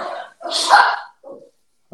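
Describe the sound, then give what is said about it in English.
A dog barks in a few short, sharp bursts, moderately loud, with brief pauses between them and a final clipped yelp at the end. “Hold on. My boy's barking in the background.”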